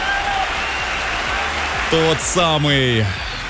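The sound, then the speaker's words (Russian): Applause for a quiz winner: steady, dense clapping continues without a break for the whole stretch, and a short voice briefly rises above it partway through. “Эти аплодисменты для тебя.”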